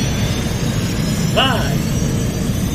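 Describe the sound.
Rocket launch sound effect: a steady, heavy low roar fills the whole clip, with a brief swooping whistle midway.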